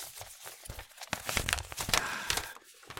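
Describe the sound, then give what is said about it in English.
Paper envelope being opened and mail pulled out: quiet, irregular crinkling and tearing rustles in short scraps throughout. “Just opening an envelope. Right. Just pulling out the mail.”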